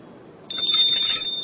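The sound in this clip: A small bell shaken during a Buddhist teaching gives a sustained high ringing with a shimmering jingle. It starts about halfway through and carries on to the end over a low, steady background hum.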